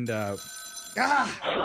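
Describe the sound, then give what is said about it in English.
An old rotary telephone belonging to a grandmother rings, a short burst of steady bell tone sitting between bursts of lively speech from people talking just before and after it. “My grandma's rotary phone is ringing.”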